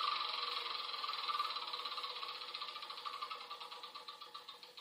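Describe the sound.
A board game spinner wheel whirs with rapid ratcheting clicks that gradually slow and space out as the wheel winds down.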